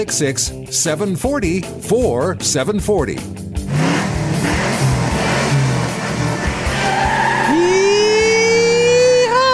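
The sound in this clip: A car engine revs hard, its pitch climbing steeply toward the end, joined by a high, thin tire squeal; people talk over the opening seconds before the engine takes over.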